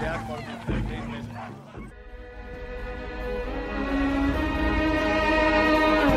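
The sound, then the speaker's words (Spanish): Dogs barking in a drama scene: a few sharp barks and yips in the first two seconds, then a louder, sustained layered tone that swells toward the end. “atende a los perros”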